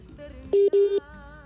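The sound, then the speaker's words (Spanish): Telephone tones sound while a call is placed: a short beep, then a slightly longer one at the same steady pitch, both clear and loud above faint background noise. “Pues ahí se oye o dio como un tono, si estaba marcando o no.”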